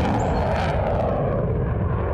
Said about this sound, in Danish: Og så stopper du op, fordi du hører det her høje brøl over dig. Og så er der sådan et nyt kampfly, F-35 kampfly, der suser hen over dig.